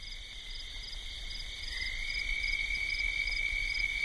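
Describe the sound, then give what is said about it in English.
Toads croak steadily near the Henry Mountains in Utah, forming a high, continuous buzzing trill that holds level throughout and grows slightly louder toward the end, with no voices present. “all that came through on my microphone was the steady croaking of toads.”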